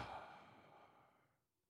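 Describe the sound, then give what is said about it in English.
A big, deep exhale like a sigh: one breathy rush of air that starts loud and fades steadily to near silence, with no talk. “Take a big inhale, and then a big exhale.”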